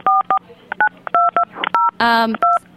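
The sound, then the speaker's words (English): Touch-tone telephone dialing beeps during a phone call, a string of short dual-tone keypresses in an uneven rhythm, with a brief voice cutting in near the end. “Is somebody dialing?”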